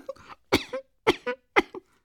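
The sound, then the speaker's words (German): A woman's coughing, performed by a voice: three sharp, hoarse coughs spaced evenly, each followed by a shorter catch of breath, with faint breathy sounds before the first. “Sie hustete.”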